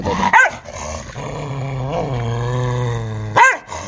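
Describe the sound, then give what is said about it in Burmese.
A dog gives two short, sharp barks, one near the start and one near the end, with a long, low, sustained growling whine held between them. “ဟောင်းတာတစ်ချက်တော့ကြားလိုက်တယ်”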